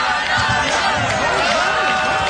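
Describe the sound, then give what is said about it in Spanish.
Football fans in a stadium singing a sha-la-la chant to cheer on their team, a loud, continuous mass of wavering sung voices over general crowd roar. “El público canta, Alex. Sí, el sha-la-la-la-la o de Cano. Para alentar a los suyos”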